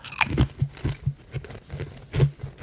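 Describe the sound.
Crisp biting and chewing of crunchy orange cheese-flavoured chips, a quick irregular series of crunches alone without talk.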